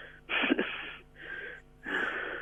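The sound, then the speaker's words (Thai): A voice imitates heavy panting, like an exhausted person breathing hard: three hoarse, breathy bursts in an uneven rhythm, fairly faint, with no words spoken. “เหมือนคนเหนื่อยหอบอ่ะมันยืนหายใจอยู่ข้างหลังอ่ะ”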